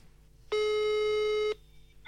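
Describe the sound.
Telephone ringback tone while placing a call to an office contact: one steady, buzzy tone lasting about a second after near silence, then a pause before another tone begins at the very end.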